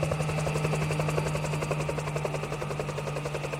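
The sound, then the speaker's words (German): A helicopter flies over mountains, its rotor giving a loud, rapid, steady chop over a constant engine whine, heard alone without voices. “kommt schließlich eine Staatssekretärin vom Bergbauministerium mit schwer bewaffneter Polizei in einem Hubschrauber über die 7 Berge nach Junin geflogen.”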